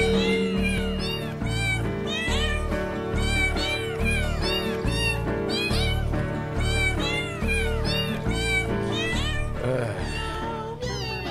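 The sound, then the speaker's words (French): Many cats meowing, loud overlapping wavering cries that repeat almost without pause over a steady low drone for about eleven seconds. “Puis les chats sont bons, là. Ils chantent vraiment pour vrai devant nous, on les voit.”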